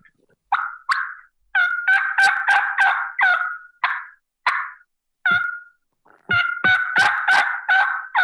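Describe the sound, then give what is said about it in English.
Turkey calling with light clucks and yelps: short, sharp notes arrive singly and in quick rhythmic runs, moderately loud and alone, with brief pauses between the bursts. “just basic light yelping and little clucks”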